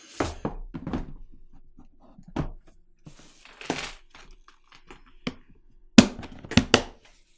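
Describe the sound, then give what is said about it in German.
A box lid is shut with a scattered series of dull thuds and knocks. The sharpest hits are clustered near the end, with quiet gaps between them. “Und dann können wir die Produktkiste für heute zumachen.”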